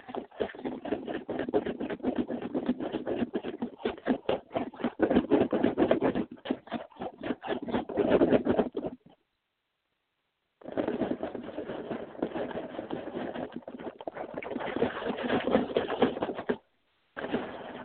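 A small blind-bag toy box rattles in dense, dry clicking bursts, loud and steady, broken by two short pauses.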